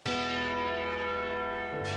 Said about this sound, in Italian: Nel mio paese qui, dove sono, dopo le porte di Bergamo, ci sono di nuovo le campane a morto. Ogni giorno, ogni momento, si suonano le campane a morto.